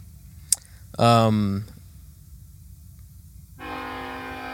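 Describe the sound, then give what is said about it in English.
A train horn sounds near a house: a short click, then one loud harmonic blast. After a pause, a second steady horn tone holds to the end. “if you have not been to my house, there it is. That's a train.”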